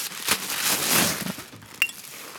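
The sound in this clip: Crinkly rustling of wrapping around a gift bottle of wine from the Plajol family of Gaillac, capped and with an orange label, handled in a steady crackle, then a single sharp glassy clink near the end.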